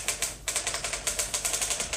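Typewriter keys strike in a rapid, uneven run of many sharp clacks during office dictation of a letter. The keystrokes come crisp and steady, with a brief pause early on and no voices.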